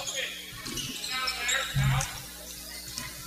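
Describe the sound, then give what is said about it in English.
A basketball dribbled in the final seconds of a Tigers game against the Franklin County Wildcats, its dull rubbery thuds bouncing under a commentator's continuous talk. “15 seconds, and Tigers will dribble this thing out the rest of the way.”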